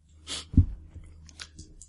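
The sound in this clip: Chewing on a large drumstick: a crisp crunch, then a low thump followed by a few soft, faint wet mouth clicks.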